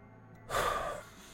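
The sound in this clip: A deep breath: a single short, airy inhale that swells quickly and fades after about half a second, fairly loud against a quiet background, with no talking.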